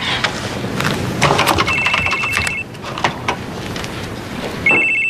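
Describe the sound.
Telephone ringing with an incoming call: two bursts of a steady, high electronic ringtone rise over a busy background of clattering noise and thumps, loud and fairly dense throughout.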